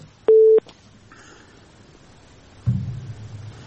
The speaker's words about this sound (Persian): تماسشون قطع شد